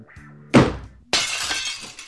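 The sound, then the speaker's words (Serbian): A mirror and a flowerpot holding a rhododendron shatter in two loud, sharp crashes, the second followed by a longer spray of breaking fragments. “Vrisnu Brigić, puče ogledalo i saksija sa rododendronom”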